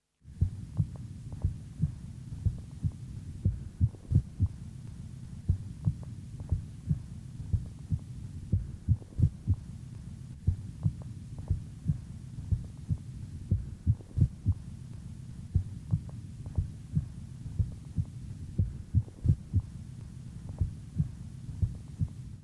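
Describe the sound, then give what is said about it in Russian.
Heart sounds through a stethoscope, with single premature beats each followed by a compensatory pause and a louder first sound at the extra beat. Many steady, soft thumps repeat over a low hum, with no voices. “на фоне правильного ритма слышны одиночные преждевременные сокращения сердца, после которых следует компенсаторная пауза. В момент экстрасистолы можно определить усиление первого тона по сравнению с предшествующими циклами.”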